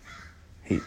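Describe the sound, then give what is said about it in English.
A bird call, a single short harsh caw like a crow's, bursts out loudly near the end of an otherwise quiet stretch with low background hum. “There's a bird chirping in the background. It's like, I feel like every time I'm talking, he just chirps.”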